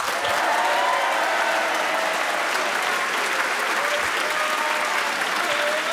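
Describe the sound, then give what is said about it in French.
Applause from a large audience greeting two young guests at a live show, a dense, sustained wash of clapping hands that stays loud and even for several seconds without voices. “De beaux encouragements de notre public nombreux.”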